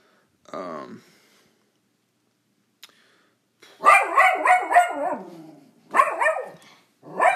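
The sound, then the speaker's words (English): A dog barks excitedly in sharp, high-pitched bursts: a whining yelp first, then a rapid cluster of yapping barks and a few more short bursts, separated by quiet gaps. “That's my dog barking very crazily.”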